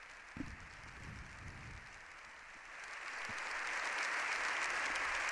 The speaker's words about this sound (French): Avant de prendre place sous les applaudissements que vous entendez dans l'hémicycle.